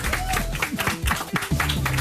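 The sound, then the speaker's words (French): Applause welcoming a guest onto a Sunday afternoon radio show, brisk clapping for about two seconds with voices mixed in. “Ça le fait avec des applaudissements.”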